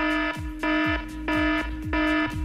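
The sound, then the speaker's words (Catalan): Electronic alarm sound effect used as an anti-theft alarm: a harsh, buzzy tone pulsing in four evenly spaced bursts, each trailed by a brief falling low sweep, loud and with no voices. “Ja la tenim aquí, l'alarma, eh? Sí, l'he tonejat una mica. Perquè aquesta alarma era d'estafa. I ara l'he utilitzat pels lladres.”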